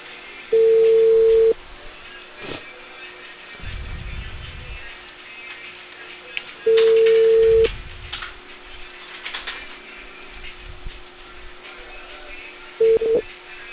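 A telephone line rings out with a steady ringback tone: two long, even beeps about six seconds apart, with a third just starting at the end, over quiet line hiss.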